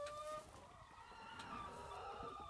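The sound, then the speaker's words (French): Hens cluck softly and continuously inside a henhouse where laying hens sit in nests among many eggs. Overlapping calls rise and fall over a constant faint background. “Donc là, on vient d'entrer dans le poulailler. Et je vois déjà plein d'œufs.”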